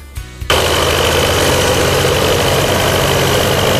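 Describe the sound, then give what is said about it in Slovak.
A tractor engine runs at a ploughing championship in the village of Maňa, Nové Zámky district. A few faint knocks precede a loud, steady, rumbling drone that starts abruptly and holds evenly to the end. “Aj takto to znelo na požitavských majstrovstvách v orbe, ktoré sa konali v obci Maňa v Novozámockom okrese.”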